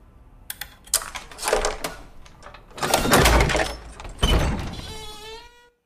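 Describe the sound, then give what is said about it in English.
A key scrapes and clicks in the lock of an attic door at the top of a shadowy stairwell, with sharp metallic rattles. The door then opens with a drawn-out creak. “She inserts the key into the lock.”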